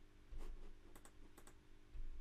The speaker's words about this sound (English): Toggle keyboard, control K. So I was doing it correctly. Just my keyboard control button is a bit sticky.